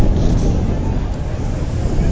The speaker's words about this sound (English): Very, very breezy crosswind as you look at the boats going out. The wind is blowing over their right shoulders.